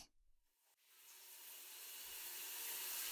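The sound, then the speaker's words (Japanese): Shower water running, a faint airy hiss that starts after a small click and swells gradually, growing steadily brighter to the end. “シャワーを流してごまかさないといけないの。”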